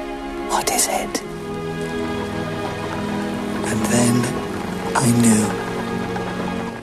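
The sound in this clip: Steady rain falls on a surface with a dense, even patter and scattered drips that hold at a constant level throughout, with a few brief tonal sounds mixed into the wash.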